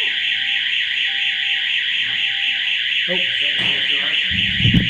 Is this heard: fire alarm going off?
yes